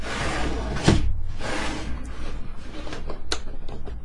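Someone opening a boxed package containing a copy of Fallout 4: cardboard scraping and rustling, one sharp knock early on, then a few lighter clicks and shuffles as the box is worked open.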